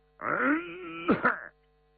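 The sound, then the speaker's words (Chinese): A man's voice fakes a cough: a drawn-out, groaning voiced sound, then two short, harsh throaty bursts before silence. “杨香武一看他假装咳嗽，自己也得装装像。”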